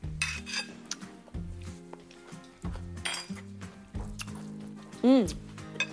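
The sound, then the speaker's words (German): A tuna sandwich filling with lemon zest and paprika is mixed in a bowl, giving repeated utensil clinks against the dish and soft squishy scraping throughout. “Das Ganze wird jetzt hier vermengt und dann haben wir die Füllung für unser richtig leckeres Diner-Sandwich auch schon fast fertig.”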